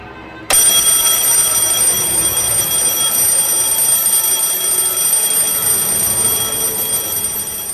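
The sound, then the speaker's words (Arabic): An alarm clock rings loudly after a brief quiet start, a steady, shrill, continuous ring that holds without a break to the end, with no voices. “يمكن دي احسن مره حسيت فيها ان انا محتاج اسمع صوت المنبه في حياتي. يمكن ده اجمل صوت سمعته وهسمعه طول عمري.”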